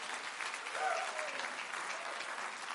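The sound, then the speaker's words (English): A church audience claps its hands in praise. The clapping is steady and dense throughout, and a brief voice calls out over it near the start. “Let's give God a hand clap of praise one more time.”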